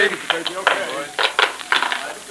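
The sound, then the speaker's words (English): Prying open the lid of a mummy case: a run of sharp wooden clunks and scraping creaks, irregular and moderately loud, coming in quick clusters one after another. “All right, boys, pry off that lid.”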